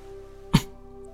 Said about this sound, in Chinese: 不是，我只是清清嗓子。